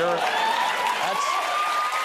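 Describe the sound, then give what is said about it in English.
An audience applauds and cheers in a dense, steady wash of claps and shouts, loud throughout, with a voice audible over the crowd. “And the crowd loves it. The crowd goes wild. The crowd cheers.”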